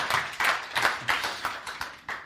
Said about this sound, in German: Kleiner Applaus für unseren Preacher Man für heute.